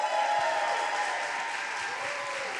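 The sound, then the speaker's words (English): An audience applauds to welcome a guest onto a stage. The clapping is a dense, steady clatter of many hands that holds at an even level throughout the short stretch, with no voices. “Please make some noise for Mr. David Rudolph. Give it up.”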